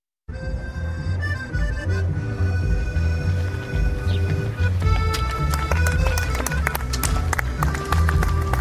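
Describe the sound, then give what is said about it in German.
Runners' footsteps at the Limassol marathon: many quick, steady footfalls pattering without pause for the whole stretch. “Die Läufer schwitzen, der Schnellste hat noch 5 Kilometer bis ins Ziel. Es ist Marathon in Limassol.”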